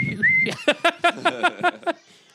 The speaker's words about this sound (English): apparently their alarm system is a whistle. Just whistles. Just whistles.